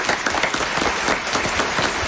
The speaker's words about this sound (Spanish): Un aplauso para esta joven.